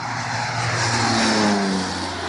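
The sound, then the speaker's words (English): A crop duster airplane flies over a salt marsh while dropping mangrove seeds. Its engine noise swells to a loud peak and then eases, and a droning tone slides downward as it passes. “hired a crop duster to drop plane loads of mangrove seeds deep into a salt marsh where only fragile grasses had grown before”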